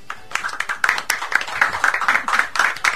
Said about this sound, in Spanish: A ver los aplausos.